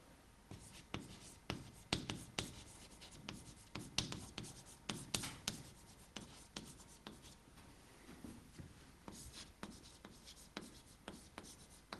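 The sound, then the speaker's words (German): Pen scratching across paper as someone writes by hand, many short irregular strokes and taps in an uneven rhythm, fairly quiet and heard alone. “ich schreibe jetzt mal hier weiter”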